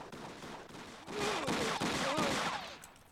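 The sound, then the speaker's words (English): Gunfire from a scene in a TV show played back: many loud bangs in rapid succession over a dense, noisy background, lasting around two seconds before fading. “That's audio of him shooting.”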